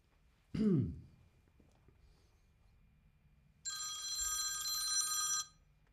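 A telephone rings during a call: one sustained electronic ring lasting about two seconds, preceded by a brief throat-clearing and then a quiet pause.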